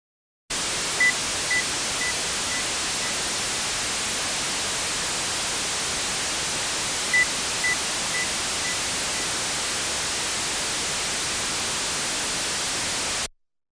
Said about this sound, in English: Now the signal is masked with broadband noise.